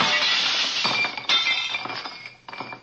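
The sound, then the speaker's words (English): Glass shatters as a baseball crashes through a laboratory window: a bright, loud burst of breaking glass, then several tinkling clinks of falling shards that thin out and fade. “baseball crashed through the window of my laboratory”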